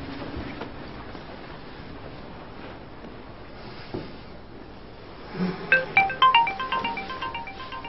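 A telephone ringtone plays a short, bright, melodic tone pattern near the end, over a faint, quiet background with no talking.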